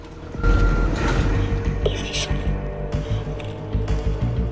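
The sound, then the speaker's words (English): A truck reverses along a back street in London at night, its backing-up beeps set within a rumbling engine drone and occasional clunks. “A truck drives through some back streets in London at night. The driver spots a skip full of junk. He backs up for a better look.”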